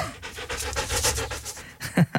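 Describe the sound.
A dog living in a parsonage pants in quick, rhythmic breaths, a steady run of many short huffs with a louder snort-like breath near the end.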